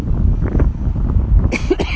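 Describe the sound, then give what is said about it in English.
A short cough breaks through near the end, over strong wind buffeting the microphone on a street. The wind roars steadily throughout, and the cough lands as a sudden, brief burst of noise. “In fact, I'm coughing now too.”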